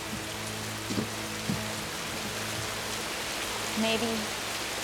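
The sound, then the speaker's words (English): Steady rain falling at a harbour, a continuous soft hiss that runs unbroken through the whole clip, with a few faint low tonal sounds rising briefly above it. “She pauses and brushes rain from her head.”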